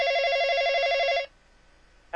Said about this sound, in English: Somebody's phone is ringing.